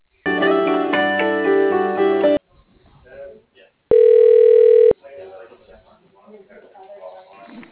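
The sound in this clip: A single steady electronic ring tone sounds for about a second as a phone call to a business is transferred. It comes after a busier tonal passage and is followed by talk.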